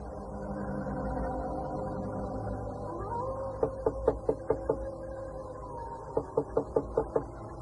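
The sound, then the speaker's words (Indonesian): Knocking on the front door of a house, in two quick series of sharp, evenly spaced raps separated by a pause, heard over a steady tonal background. “dia mengetuk pintu.”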